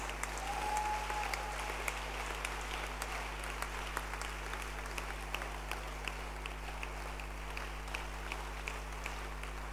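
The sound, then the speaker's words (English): A church audience claps hands for a pastor in a dense, steady wash of applause that lasts throughout without a break, with a low constant hum underneath. “Clap your hands for this great man of God. Keep clapping your hands.”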